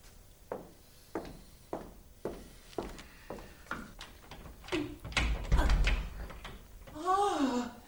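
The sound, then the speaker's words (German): A worn-out door that won't last much longer is knocked on in a steady series of knocks, then opened with a louder rattling burst, and a brief voice follows. “Diese Tür macht's nicht mehr lang.”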